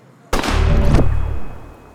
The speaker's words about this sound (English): I see one of the thugs burned by the vinegar regained his senses and attempts to shoot me.